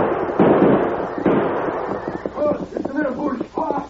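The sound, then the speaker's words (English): Gunshots in a radio drama shootout: two loud, sharp blasts about a second apart, each with a rumbling decay, followed by voices talking. “We hit him, old man, but he's shooting back.”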